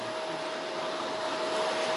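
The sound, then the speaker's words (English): A vacuum cleaner runs on its own, a continuous steady whirring drone at constant loudness. “Could that vacuum cleaning any louder, please? I'm begging you.”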